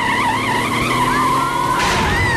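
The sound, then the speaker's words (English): A bus swerves across the path of a slow, wood-panelled trolley bus with a sustained, wavering tyre squeal and engine whine, and a louder burst of noise near the end. “The collision throws the passengers off their balance amid falling gold leaf and dust.”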